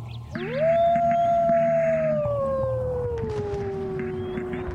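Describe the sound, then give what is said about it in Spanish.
A lone, long howl swoops up quickly, then holds and slowly slides down in pitch over several seconds. It is loud and steady over a faint layered background of other tones. “Mientras la noche sigue avanzando, nosotros seguimos creyendo que siempre es de día. Y ya ninguno escuchamos ese aullido solitario.”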